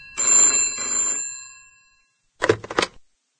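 A telephone rings with a bright, metallic bell tone that sounds for about a second and fades away, followed after a pause by two short, sharp bursts.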